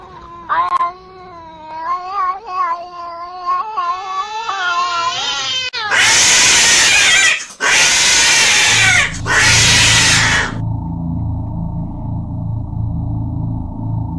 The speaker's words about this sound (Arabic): لقيت قطة موجودة على السرير. القطة صوتها زي ما يكون صوت قطتين ثلاثة مع بعض.